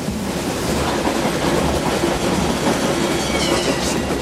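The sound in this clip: Steady rumble and rhythmic clatter of a train carriage rolling on rails, a hospital car carrying wounded soldiers in bunks, loud and continuous throughout with no voices.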